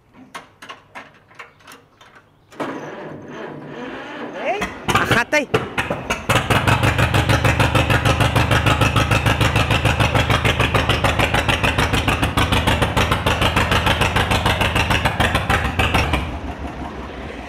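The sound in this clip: An old tractor engine runs in fourth gear at its top speed of about 19 km/h, settling after a few uneven seconds into a loud, steady, rapid chugging beat that holds to the end.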